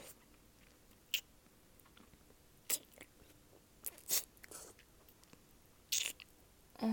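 Food being bitten and chewed, with several crisp crunches spaced irregularly over a quiet background and fainter chewing between them, no voices.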